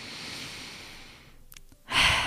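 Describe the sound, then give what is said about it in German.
A deep breath: a long, soft, airy inhale that fades, a brief pause, then a stronger breathy exhale at the end. “heute lade ich dich wieder mal ein, um einfach einen tiefen Atemzug zu nehmen”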